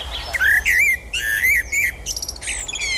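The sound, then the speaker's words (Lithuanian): Common blackbird singing in Kaunas, Lithuania: a loud series of clear, fluting whistled phrases broken by brief pauses, with higher twittering notes toward the end, heard alone without voices. “juodasis strazdas”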